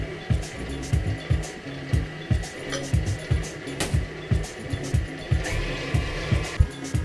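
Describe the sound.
Rhythmic thumping from a stand mixer kneading dough while a milk-yeast mixture is poured in. Many regular knocks repeat at a quick, even pace over a low motor hum.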